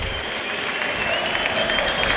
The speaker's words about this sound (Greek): ενώ υπάρχουν χειροκροτήματα στα επίσημα του ΆΚΑ, καθώς βλέπω Πάντσο Ερνάν Γκόμεθ, Τζέρι Αγκράντ και τις λοιπές δυνάμεις από την μπασκετική ομάδα του Παναθηναϊκού.